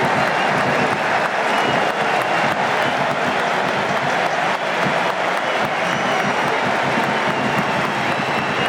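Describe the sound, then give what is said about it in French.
Stadium crowd ovation during a player substitution at a France national football team match: a dense, continuous roar of clapping and cheering that stays loud and steady throughout. “Ouais, on va écouter l'ovation.”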